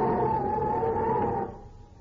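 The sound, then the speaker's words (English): Wind howling outside on a cold night, used as a radio drama effect: a steady whooshing roar with a whistling tone running through it, which fades off sharply in the final moments. “It's a cold night and the wind is howling outside.”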